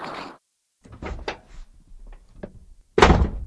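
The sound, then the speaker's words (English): A door slams shut with one loud, sharp bang near the end, after a few quieter thumps and rustling movements earlier on. “Uh-oh, I heard a door slam.”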